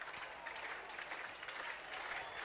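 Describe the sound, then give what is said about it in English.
Crowd roaring and clapping at a college baseball stadium as Alabama clings to a 3-1 lead with two out and a full count. The sound is a faint, steady wash of cheering and applause. “Crowd roaring at the Joe.”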